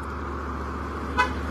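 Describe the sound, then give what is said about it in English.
A single short car horn toot sounds on a road, faint and brief, rising above a low, constant traffic hum. “All right, enough of the honking horns.”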